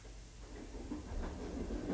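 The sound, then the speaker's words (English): Low, faint rolling rumble of a passenger train riding the rails on a morning excursion, with a soft hiss over a steady drone that swells slightly toward the end. “You're riding rails with Conductor Joe.”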